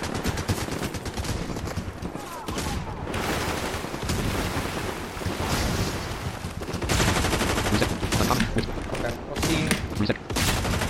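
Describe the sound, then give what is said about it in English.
Video-game gunfire erupts in dense, rapid bursts of automatic shots, loud and sustained across the whole stretch with a few brief lulls between volleys. “now we're being shot at”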